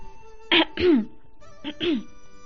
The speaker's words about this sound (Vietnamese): xoay lưng lại khẽ ho khan vài tiếng